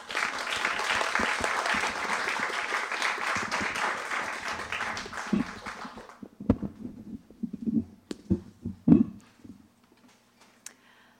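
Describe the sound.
Audience applause welcomes two authors at a bookstore event: a loud, dense burst of many hands that thins after several seconds into a few scattered, isolated claps before fading to quiet.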